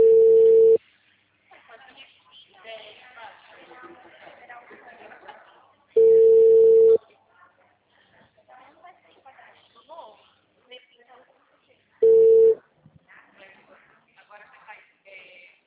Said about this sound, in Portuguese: Alô? Alô? O número está ocupado.